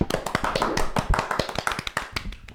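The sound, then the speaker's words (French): Hands clap in applause for a moderator: many quick, uneven claps from a few people in a dense, lively patter that keeps going throughout. “Du coup, on peut l'applaudir. Allez, on applaudit le meilleur modérateur.”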